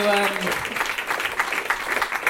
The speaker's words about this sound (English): I've just written end to rapturous applause. So, and they did.